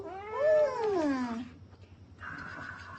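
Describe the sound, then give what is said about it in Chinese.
An orange cat meows once, long and drawn out, rising and then falling in pitch. A quieter, flatter second call follows after a short pause. “话说得好，马中赤兔，猫中大橘，我们豆包呢就是橘猫中的吕布。”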